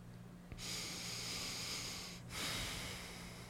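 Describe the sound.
Slow breathing in and out, heard as two long, airy hisses of steady loudness separated by a brief pause, with no voices.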